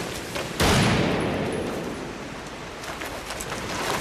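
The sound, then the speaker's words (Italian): A gunshot during a police confrontation: one sharp, loud crack, then a long, hissing tail that slowly fades into steady noise. “Che ha sparato?”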